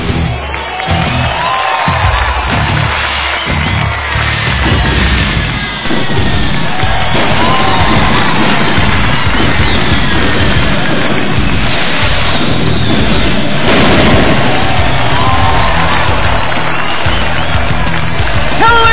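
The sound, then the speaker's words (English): A packed crowd roars and cheers at Baltimore Arena, a loud, dense and continuous wall of noise with surges of applause-like clatter throughout. “we're coming to you live from the jam-packed Baltimore Arena. And my God, is this place going crazy or what? By the sounds of the chants in the arena tonight,”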